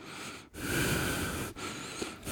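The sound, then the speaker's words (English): A voice imitates an elderly man's raspy, snore-like breathing from the back of the throat. A few rough, noisy breaths are separated by brief pauses. “but it sounds more like in his back of his throat, like, he probably was, like, snoring while standing there.”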